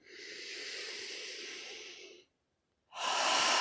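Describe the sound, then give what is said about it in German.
Deep breathing during a relaxation exercise: a long, airy, hissing breath in, a brief silence, then a strong, rushing breath out. “Noch einmal einatmen und ausatmen.”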